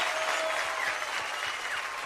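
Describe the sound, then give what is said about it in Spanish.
Applause for a performer called the kitten on a Guatemalan children's show. The clapping is steady, dense and loud, holding evenly for the whole stretch with no voices over it. “Otro aplauso para el gatito.”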